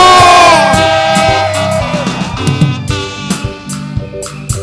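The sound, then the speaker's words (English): A church audience cheers and shouts joyfully during a service, a loud, sustained wash of voices that later carries a few sharp, punchy hits. “How many of us are in the house this morning? Somebody make a joyful noise.”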